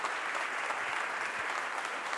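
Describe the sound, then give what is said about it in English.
A church audience on its feet gives steady, dense applause, an even wash of clapping that carries on without a break from start to finish. “So would you do me a favor? Let's honor the gift. Stand up, put your hands together.”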